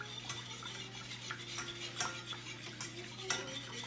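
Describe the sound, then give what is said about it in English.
Whisking in a pan as butter is worked piece by piece into a curry over low heat, a faint, steady run of soft metallic scrapes and light clinks in an uneven rhythm. “whisking a lot, adding the butter one piece at a time to get the perfect curry for breakfast or for dessert.”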